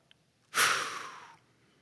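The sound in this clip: A single audible breath, a soft breathy hiss of air pushed out for under a second, rising quickly and then tapering off, heard alone against near silence.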